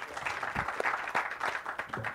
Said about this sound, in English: So can we give these folks a round of applause for joining us this morning?